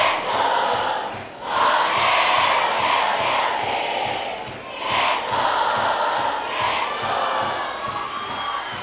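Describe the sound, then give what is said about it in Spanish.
A concert crowd roars and cheers at a live show during a platinum record presentation, a loud, sustained wash of shouting voices that briefly dips twice before surging again. “Yo quiero escuchar bien fuerte el aplauso.”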